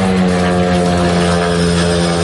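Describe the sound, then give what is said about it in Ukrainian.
Steady, loud buzzing drone of a flying drone near a large oil-loading port on the Baltic Sea, its layered tonal hum holding one pitch through the whole clip. “Поють птиці красиво і дрони летять.”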